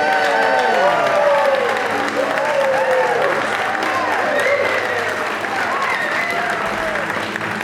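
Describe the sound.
Applause and cheering from a studio audience at a radio theater show recording: dense, continuous clapping with whooping voices rising and falling on top, loud and steady throughout.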